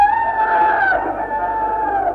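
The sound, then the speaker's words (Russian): A rooster gives one long, loud crow, a sustained harmonic cock-a-doodle-doo that holds a steady pitch and eases off slightly at the end, heard alone without talk. “Третий петух.”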